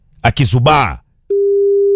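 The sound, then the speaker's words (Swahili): A telephone ringback tone begins after a short burst of speech, as a steady, low-pitched tone that continues to the end. “Simu inaitana pale vile.”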